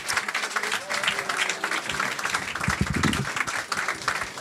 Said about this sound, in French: l'équipe du Millennium d'ailleurs, que vous pouvez applaudir bien fort parce qu'ils nous ont fait encore une belle saison.